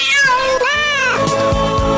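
A person imitates a cat's meow during a live bar show: drawn-out, wavering meowing calls, one arching up and then down in pitch, loud over music with thumping bass beats.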